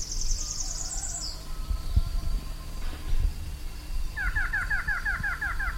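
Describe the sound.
A variable antshrike calls about 30 feet away: a quick run of repeated, similar notes in the second half, with a higher twittering call near the start, over steady low background noise.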